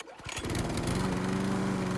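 A Country Clipper zero-turn lawn mower engine catches in a brief rising burst, then settles into a steady, loud, buzzing drone that holds to the end.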